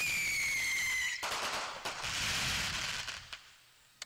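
A fireworks cake fires mines with shots into the air: a high whistle that drifts slightly downward, then a sudden burst of crackling bangs that thins into a few scattered pops and fades.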